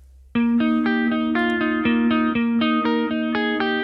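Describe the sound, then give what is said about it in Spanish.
An electric guitar plays a melodic line without chorus effect: a quick run of distorted, evenly spaced picked notes with a dry, steady tone at a bright mid pitch. “Una línea melódica de guitarra sin chorus.”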